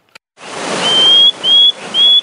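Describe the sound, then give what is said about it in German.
Whistling calls of small Madagascar tree frogs, three clear, high, thin whistles in a row, each rising slightly in pitch and ending abruptly, loud over a constant hiss. “Quaken war gestern. Die kleinen Baumfrösche pfeifen”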